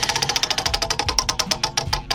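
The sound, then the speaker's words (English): A prize wheel spins with a fast, regular run of bright ticking clicks from its pointer, the ticks spacing out slightly toward the end as the wheel slows. “You want to go ahead and spin that wheel? Spin it on a Monday.”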